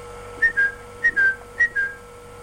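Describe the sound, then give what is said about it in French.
A white blackbird perched on a hedge whistles three clear two-note phrases, each a short high note followed by a slightly lower one, evenly spaced over a faint steady hum. “un merle blanc qui se tenait perché sur la haie voisine fit entendre son sifflement habituel”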